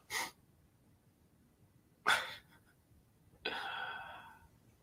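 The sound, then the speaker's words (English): A person sneezing on a live morning talk show: a few sharp, breathy bursts separated by quiet gaps, the last one longer and trailing off. “I'm going to sneeze. Excuse me.”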